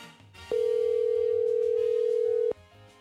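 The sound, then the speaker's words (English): One steady, mid-pitched ringback tone plays on an outgoing telephone call, lasting about two seconds at an even loudness before cutting off into quiet. “so this is me calling him back.”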